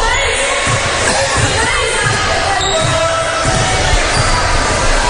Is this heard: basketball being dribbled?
yes